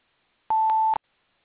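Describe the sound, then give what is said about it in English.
A single steady mid-pitched voicemail beep lasting about half a second signals the start of message recording, sounding alone in silence with soft clicks along its length. “Please leave your message at the sound of the tone.”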